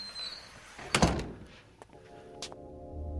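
A door opens in an audio drama with one heavy thunk, then a few fainter clicks and a short scrape. The whole sound is quiet and set against a soft background hiss.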